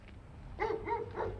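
Dog barking: three short, tonal barks in quick succession over a low, steady background hum, with no voices.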